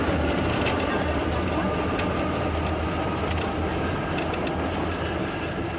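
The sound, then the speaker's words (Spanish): A train runs along city tracks with a continuous loud rumble, rattling clatter from the wheels and a faint, thin squeal running through. “Observa un tren que circula sobre las vías de la ciudad.”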